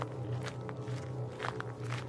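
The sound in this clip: Footsteps walk away: a few soft, quiet steps over a steady low hum.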